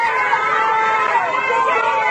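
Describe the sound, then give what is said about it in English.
Wuhan residents shout and cheer from their balconies and rooftops, making a continuous wash of raised voices. A few sustained calls stand out above the steady crowd noise. “Residents of Wuhan shouted and cheered from their balconies and rooftops today.”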